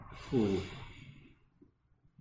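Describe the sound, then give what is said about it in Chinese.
One deep breath, shown as part of a relaxation breathing exercise, rises quickly into a breathy, partly voiced rush and then tapers off over about a second into near silence. “譬如你做深呼吸几下，譬如话一、二。”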